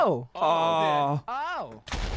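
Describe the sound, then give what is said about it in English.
A meteor strike explodes in a Minecraft natural disaster mod, a short, harsh burst of noise at the very end, after a longer stretch of a voice sounding. “This is a meteor strike.”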